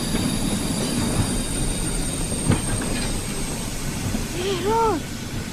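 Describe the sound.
A train coming to a stop, a continuous rumble of rail wheels with a brief rise in loudness and a short squeal near the end.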